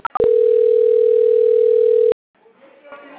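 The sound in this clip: Telephone dial tone heard during a call transfer: a couple of brief beeps, then a loud steady single-pitch tone lasting about two seconds that stops abruptly, followed by faint talk.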